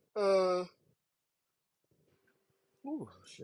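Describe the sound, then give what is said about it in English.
A single voiced yawn, drawn out with a strained tonal quality for about half a second, followed by quiet and then a person starting to talk. “got a little yawn there.”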